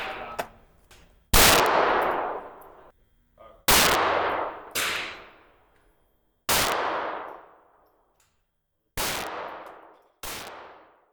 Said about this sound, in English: I'll probably take another shot before I move my sights again.